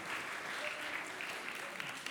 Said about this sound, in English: Give Mike a round of applause and sit back down.